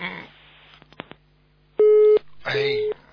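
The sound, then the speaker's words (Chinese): A telephone busy tone sounds after a dropped call as two steady beeps of the same pitch. Brief speech and a few sharp clicks come before them, and a voice overlaps the second beep. “电话断了。”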